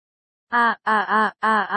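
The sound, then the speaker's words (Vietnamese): A woman wails pitifully, crying out again and again in three drawn-out, voiced moans separated by short silent breaks, each cry loud and mournful. “Thụy Thụy bày ra một gương mặt khóc lóc, kêu là một tiếng rồi lại một tiếng càng thảm thiết hơn.”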